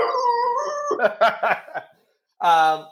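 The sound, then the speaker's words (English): A dog howls in sustained, steady-pitched tones, first for nearly a second and again briefly at the end, with a person talking between the two howls. “sorry for my dog.”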